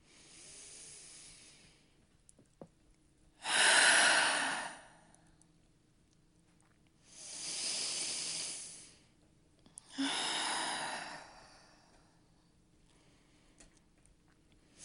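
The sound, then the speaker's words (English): Slow, deep breaths taken during a guided stretch: three long, airy, hissing breaths separated by quiet pauses, preceded by a fainter one. “start with a couple extra deep breaths.”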